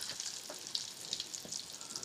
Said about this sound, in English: All right, so the eggs are gonna go in now.